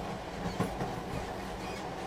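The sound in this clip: Steady low rumble and clatter of a train carriage carrying a passenger home at night, a continuous quiet drone with faint rhythmic knocks and no voices.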